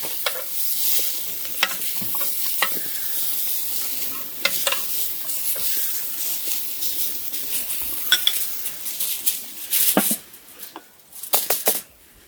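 Meat fries in a pan with a steady, bright sizzle, broken by scattered clinks and scraping from stirring or utensils. The clatter grows busier near the end. No one speaks.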